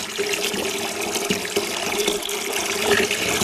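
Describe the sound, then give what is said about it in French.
Water runs from a tap into a basin being filled, a steady rushing and splashing stream with small gurgling fluctuations throughout, heard alone without talk. “on va par exemple remplir une bassine d'eau.”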